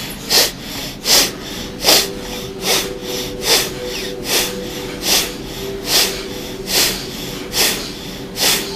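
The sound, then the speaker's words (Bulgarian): Forceful breaths through the nose only, during a pranayama breathing exercise: many sharp, hissing sniffs repeated at an even rhythm a little under a second apart, with no talking. “Сега дишай само през носа.”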